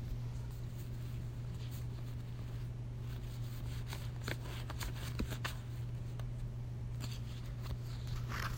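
Playing cards being handled during a card game, with soft scattered clicks and light shuffling over a steady low hum.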